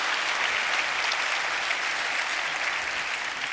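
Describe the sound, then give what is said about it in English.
Audience in Auckland applauds to welcome a Norwegian author onstage. The clapping is an even, unbroken wash at a steady level from start to finish. “Please welcome again to Auckland, Carl Ove Knausgard.”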